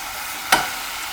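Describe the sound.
Stir-fried ingredients, cooked ahead before clams are added, give one short scrape in a hot pan over a faint, steady sizzle.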